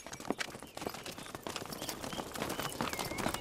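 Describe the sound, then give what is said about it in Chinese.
Horse hooves clip-clopping as a horse is led along: a steady stream of many hollow hoof knocks over constant background noise, with no voices. “把马牵过去，把路让开，快点， 跟上”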